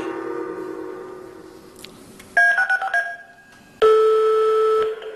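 Telephone keypad tones: a quick run of a few short beeps, a pause, then a longer steady tone, all loud over a faint fading hum.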